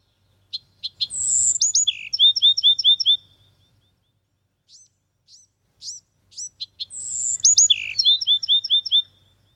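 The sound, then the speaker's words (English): Bird song in two bright bursts of rapid, high chirps and trills, separated by a few isolated high notes, with a faint low rumble underneath. “Well, that was the song. It's a bird, obviously.”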